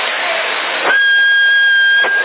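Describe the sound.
A whistle sent over a CB radio transmitter at full power: one steady, high whistle tone lasting about a second inside constant hissy radio noise, with a click where it starts and another where it stops.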